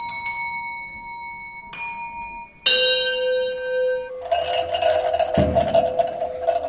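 Bells ring at an exhibition of folk instruments: a few separate strikes, each leaving a long, sustained ring, then a denser clangor of overlapping bells toward the end.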